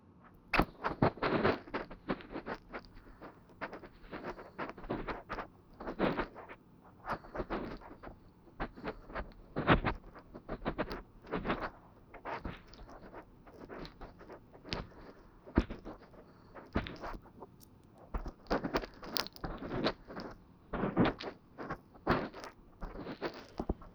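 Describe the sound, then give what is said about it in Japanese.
Soft, wet rubbing and squelching of an ASMR oil massage deep inside both ear canals at once, coming in quiet, irregular bursts of close friction with brief pauses between them. “それでは最後に、耳の穴の深いところもマッサージさせていただきますね。”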